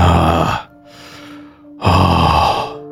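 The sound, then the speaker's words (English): A person taking deep breaths: two long, loud, airy breaths, with a much softer breath between them. “I just take some like real deep breaths”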